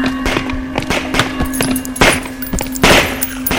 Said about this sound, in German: Runter mit den Waffen! Die Infizierten, sie wurden alle erschossen.